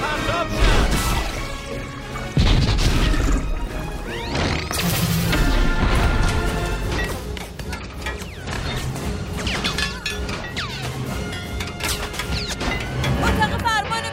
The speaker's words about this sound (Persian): دوباره بزنیدش. موشک ها رو پرتاب کنید.